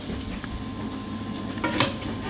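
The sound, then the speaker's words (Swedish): Hedgehog mushrooms frying in a pan in a small kitchen: a steady, dense sizzle runs throughout, with a brief clatter of cookware near the end. “det steks igelkottssvamp”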